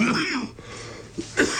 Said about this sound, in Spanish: Ahora nos va a contestar cuando se le pase la tos.